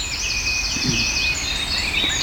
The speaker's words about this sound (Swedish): Det är bara en enda rödhake då som finns inom ett visst område. Och där sjunger alltså både hanne och hona då i någon gång i november, december kan vi höra dem.